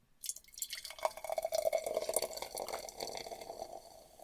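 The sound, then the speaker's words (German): Fizzing carbonated drink from a freshly opened can, a steady faint hiss of crackling bubbles that starts just after the opening moment and continues for about four seconds with no voices. “Ich öffne mal das Siegel. In der Hoffnung, dass es nicht raussprudelt.”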